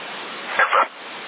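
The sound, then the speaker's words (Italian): A dog barks over a CB radio transmission: two short, close barks rise out of a steady narrow-band radio hiss, then the hiss continues alone. “Sento cane, sì.”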